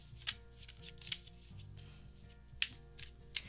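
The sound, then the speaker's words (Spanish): Oracle cards being shuffled, heard as soft papery riffles with a few sharper clicking snaps spread through the passage, faint and without speech. “Quiero sacar una carta de oráculo.”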